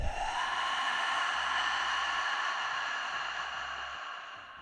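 A long, airy cooling breath is pushed out over an outstretched tongue during a breathing exercise. It is one steady hiss with no voices, and it thins and fades toward the end.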